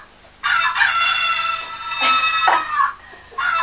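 A toy chicken crows when dropped, giving a loud, bright, buzzy cock-a-doodle-doo that lasts about three seconds before a fresh burst starts at the end.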